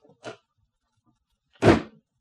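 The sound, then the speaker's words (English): A door slammed shut hard: one loud, heavy slam, preceded by a much fainter short knock, with quiet in between. “She slammed the door nearly as hard as she'd slapped my face.”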